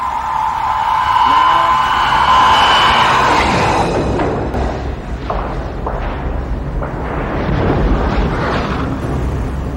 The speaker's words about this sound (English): Torpedo impact.